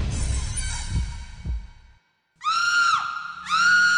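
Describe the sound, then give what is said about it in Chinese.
A woman's screams in a haunted rental house: thudding low pulses like a heartbeat, a brief silence, then two long, high, shrill screams. “何红又大叫了一声，因为他看到了女人慢悠悠地转过了脸”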